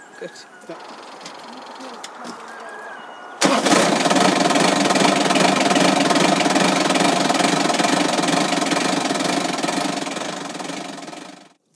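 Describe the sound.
A vehicle engine carrying passengers up a hill on a rough ride, bursting into a loud, steady roar after a quieter opening, holding a constant drone for several seconds, then easing off at the end.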